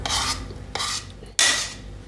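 Cooked rice is stirred and scraped into a bowl with three distinct rasping strokes, each a soft, gritty scrape that fades before the next. The last stroke is the loudest.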